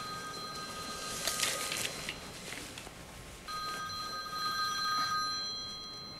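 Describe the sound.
A telephone rings during a medical consultation, a fairly faint electronic ringing tone in a few repeating bursts with a brief pause midway, heard over low background hiss.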